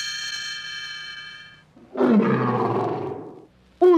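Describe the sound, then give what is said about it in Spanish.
A mother bear roars in a cave: one long, loud, rough roar lasting about a second and a half. A sustained steady tone comes before it, and a short loud burst follows at the very end. “terrible rugido estremeció la cueva. Aquel no era el osito. Era mamá osa”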